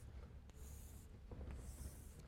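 Writing strokes made while drawing a game diagram during a lecture on Nash equilibrium: two longer, scratchy, high-pitched strokes and a few short taps over a steady low hum.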